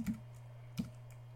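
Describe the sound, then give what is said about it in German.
Two soft keystrokes on a new, small computer keyboard, spaced well apart and faint over a steady low hum. “An die muss ich mich noch ganz stark gewöhnen, weil ist doch ein bisschen ungewohnt, diese kleine Tastatur.”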